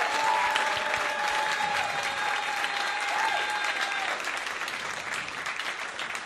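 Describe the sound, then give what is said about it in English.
Audience applause for contestants leaving a stage at a talent-show final, a dense steady clapping that holds loud for about four seconds and then eases slightly, with faint crowd voices mixed in. “But give everyone else a wonderful round of applause as they make their way off the stage.”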